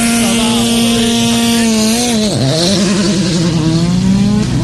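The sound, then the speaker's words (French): A Porsche rally car's engine drones loudly and steadily at a rally stage. Its pitch dips sharply for a moment midway, then climbs back and wavers as the revs change, with no voices heard. “C'est la Porsche.”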